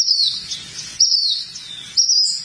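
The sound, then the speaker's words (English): Bird chirping from an unidentified bird, sharp high-pitched calls repeating in three bursts about a second apart over a faint low rumble, with no voices. “There's that mystery bird again.”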